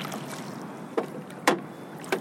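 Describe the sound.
A boat pushes out onto calm, glassy water: three distinct soft splashing strokes cut through a steady hiss of water and air, with no voices present.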